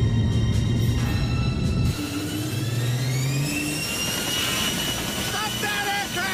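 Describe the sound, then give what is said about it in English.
A jet fighter's afterburners kick in for a takeoff from a ship without the catapult, a loud sustained engine roar with high whining tones that climb in pitch. “No need for the ship's catapult. The afterburners kick in.”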